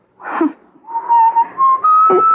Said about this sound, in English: Why do you keep whistling that song?